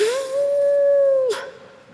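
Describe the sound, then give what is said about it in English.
A human voice imitates an elephant's trumpeting call: one sustained, fairly steady tonal cry that ends in a short breathy burst. “Yes, here's the elephant, and he makes a sound like this.”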